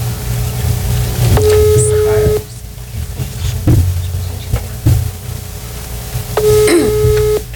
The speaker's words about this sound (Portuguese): Chamando, pessoal, é o WhatsApp, o número dela, ela não está atendendo.